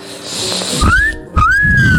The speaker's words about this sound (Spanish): deja que tus labios se separen y haz un silbido exhalando completamente por la boca.